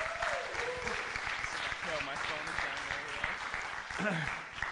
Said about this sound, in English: Hey, can we give it up one time for our worship team?